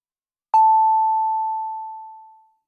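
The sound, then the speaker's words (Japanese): A single electronic time-signal beep from a radio station marks six o'clock. It strikes sharply and rings as a pure tone that fades slowly over about two seconds, alone in silence. “カズノきりたんぽ FM が6時をお知らせします。”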